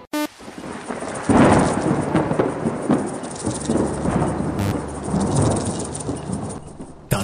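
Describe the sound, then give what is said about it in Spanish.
Steady, heavy rain falls in a dense, continuous hiss, with low rumbling thunder rolling beneath it and no voices. “Cae la lluvia del cielo como una bendición.”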